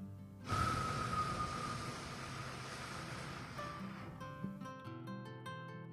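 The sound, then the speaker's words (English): A long, deep exhale of breath during a guided meditation exercise: a steady, breathy rush of air that starts suddenly and holds for several seconds before easing off, with no talking over it. “go ahead and exhale”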